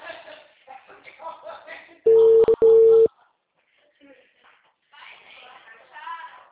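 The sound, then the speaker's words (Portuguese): A telephone busy signal sounds as two loud, steady, mid-pitched tone bursts in quick succession, with people talking before and after. “Ó, tô tentando fazer uma ligação. O número está ocupado.”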